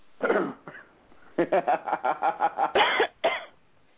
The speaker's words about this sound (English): she's coughing over there. And choking.